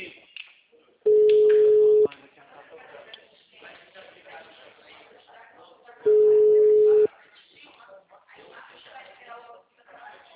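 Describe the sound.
Telephone ringback tone heard during an outgoing call: two long, steady tones, each about a second, spaced several seconds apart, under continuous talk.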